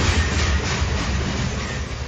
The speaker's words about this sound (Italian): di Trenitalia, proveniente da Rovigo, è diretto a Verona Porta Nuova, delle ore 5.32, è in arrivo al binario 1.